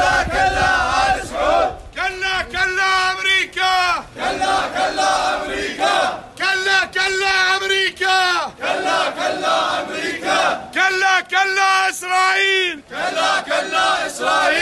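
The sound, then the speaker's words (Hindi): A huge street crowd in Iraq chants anti-American slogans in unison, voices rising in loud, rhythmic repeated phrases separated by brief breaths and gaps, a sustained roar of massed men, women and young people. “पुरुष, महिलाएं और युवा लाखों की संख्या में सड़कों पर मौजूद थे और अमरीकी आतंकियों से अपने देश की आजादी के लिए गगनभेदी अमरीका विरोधी नारे लगा”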